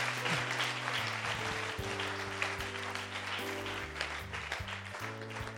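An audience claps in praise during a church worship service, giving faint, sustained, even applause over steady sustained musical tones that shift between chords.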